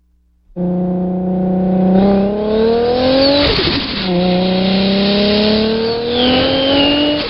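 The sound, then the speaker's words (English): Car engine sound during parking lot maneuvering, a steady, loud, buzzy, harmonic drone that climbs in pitch, drops suddenly, then climbs again, with a slightly cartoonish tone. “Parking lot maneuvering. Start, idle right away.”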